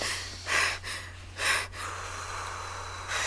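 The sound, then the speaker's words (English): Deep breathing from a person being guided to calm down: two slow, airy breaths, then a quieter stretch and the start of a third, faint over a low, steady hum. “Now take a big, deep breath with me.”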